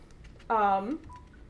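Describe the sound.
A mobile phone gives a single short electronic beep signalling it is fully charged: a bright harmonic tone lasting about half a second, heard alone over a faint background.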